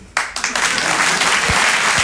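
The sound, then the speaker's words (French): Audience applause breaks out suddenly and continues as a steady, dense wash of clapping at a fairly loud level. “Votre applaudissement, il est trop bien”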